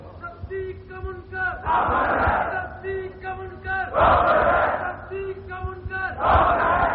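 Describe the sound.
At a political rally, a crowd roars its answer to the Nara-e-Takbeer chant. A single voice calls out, and the massed crowd replies in three loud, noisy bursts that alternate with the caller's lines.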